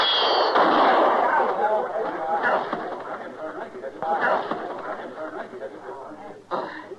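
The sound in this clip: Gunshot in a western frontier-town standoff that leaves a man wounded: a few sharp reports cut through a busy background while voices talk.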